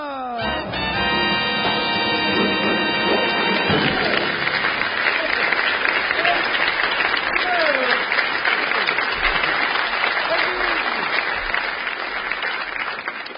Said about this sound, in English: Stop that anti-sequel applause.